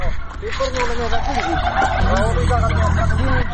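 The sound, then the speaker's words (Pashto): Turkeys gobble at the sight of corn grains being tossed to them by the handful, a dense chorus of overlapping, warbling calls that stays loud throughout. “د جوارو له دانو موټي ډکوي او فیلمرغانو ته یې اچوي. فیلمرغانو هم د خوړو په لیدو سره شور جوړ کړی.”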